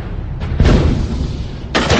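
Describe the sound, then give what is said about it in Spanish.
Hand grenade explosion set off by a downed Japanese pilot at sea during the Second World War, heard as heavy booming bursts, with a second loud blast following about a second after the first. “El piloto japonés retira la hebilla de una granada con los dientes.”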